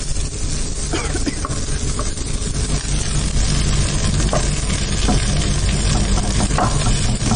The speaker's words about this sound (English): now the onions have gone nice and brown, and you're just adding the tomato puree to that? Right. And you just want to blend that in